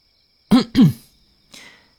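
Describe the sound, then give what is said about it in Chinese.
A person clears their throat in two short, voiced rasps, followed by a fainter breathy scrape. “中晚清了清嗓子，轻轻地拍着床板。”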